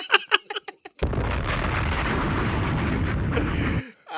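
A bomb explosion sound effect erupts abruptly as a loud, roaring blast that holds steady for nearly three seconds before cutting off, preceded by a few short sharp bursts.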